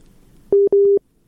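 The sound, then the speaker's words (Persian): Telephone busy tone after a listener's call from Kabul drops: two identical steady, mid-pitched beeps, loud and evenly spaced with a brief gap between them, then silence. “تماس شنونده ما فکر کنم قطع شد، از کابل تماس گرفته بود.”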